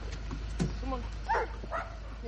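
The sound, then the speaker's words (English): Dogs yipping and whimpering as they run out of a car parked in the middle of a street, a few short, faint, high-pitched cries over a steady low background rumble. “He walks around to the other side of the car and opens the doors. The dogs run out.”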